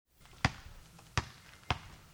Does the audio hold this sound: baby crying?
no